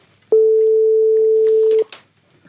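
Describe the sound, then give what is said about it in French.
A telephone call is dialed: a single steady, even tone sounds alone for about a second and a half, then cuts off, leaving faint low noise. “on va appeler une des personnes qui est derrière ce baromètre, c'est Guillaume Caline.”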